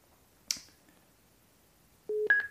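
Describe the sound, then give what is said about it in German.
A telephone places a call to a TUI travel agency: one sharp click, a pause, then short electronic tones, a lower beep followed by higher-pitched beeps. “gehen jetzt ins TUI-Reisebüro König und wollen jetzt mal den Christian anrufen und mal horchen.”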